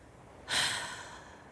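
A person exhales once during a church breathing exercise: a soft, breathy rush of air that starts abruptly and trails off over about a second, quiet and alone.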